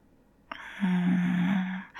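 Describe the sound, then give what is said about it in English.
A sharp intake of breath, opening with an abrupt airy onset that carries into a sustained low voiced sigh for about a second, fairly clear and without words. “That little sharp intake of breath.”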